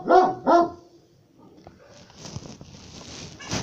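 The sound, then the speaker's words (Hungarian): A dog gives two sharp, loud barks in quick succession, followed by lower, rustling noise. “Ez kutyám. Kutyuszka.”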